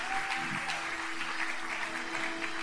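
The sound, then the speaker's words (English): Church audience applauding during a service, a steady, continuous wash of clapping at moderate level with no clear breaks. “Come on, church, just give a massive hand for everybody who's responding tonight.”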